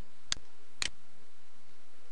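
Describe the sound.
Two sharp computer mouse clicks about half a second apart, made while working in Visual Studio. They are brief and fairly faint against a quiet background.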